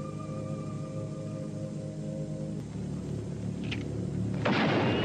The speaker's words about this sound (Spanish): Le han metido un tiro al marciano.